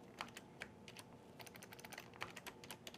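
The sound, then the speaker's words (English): Someone types a password on a computer keyboard: many quick, faint key clicks in an irregular rapid rhythm, with no voices. “And you need to type in this very strange... Capital password.”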